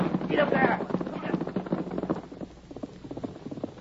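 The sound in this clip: Horse hooves gallop in a chase, a rapid rhythmic run of thudding beats that continues steadily after a brief voice calls out at the start.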